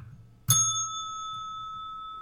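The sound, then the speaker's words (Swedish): A reception desk bell struck once gives a bright metallic ding, then a long, steady ring that fades slowly. “Jag ser någonting som ser ut som en pling. Ah, sån där plinga, receptionsplinga. Exakt, en sån här.”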